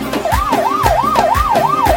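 Loud ambulance siren sound effect played at a wedding celebration, a fast, continuous rising-and-falling wail that repeats in regular cycles over a steady thumping beat.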